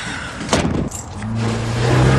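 A delivery van drives off: a sharp click is followed by a low engine drone that builds steadily louder to the end.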